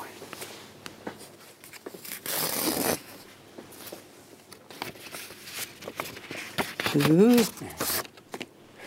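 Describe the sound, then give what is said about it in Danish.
A small envelope is torn open in a short rustling, tearing burst under talk, with further light paper handling and shuffling among the voices. “Nu har jeg noget til dig. En lille kuvert her, ja. Som jeg gerne vil have. Du skal åbne.”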